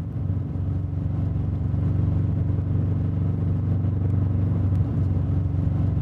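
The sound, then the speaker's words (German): Car driving noise with an eerie sound from the right rear wheel: a steady, low droning hum and rumble that holds at an even loudness throughout, with no voices. “Das rechte Hinterrad klingt gespenstisch, gruselig.”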